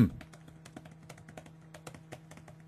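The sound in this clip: Rapid keyboard typing while jotting down a note: many quick, light taps in an uneven rhythm over a steady low hum, with no talk.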